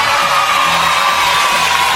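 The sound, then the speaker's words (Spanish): An audience cheers for a child winner: loud, continuous crowd cheering with high shouts and whoops, a dense roar with no distinct single claps. “Este niño ha ganado. ¡Luchín! ¡Aplauso!”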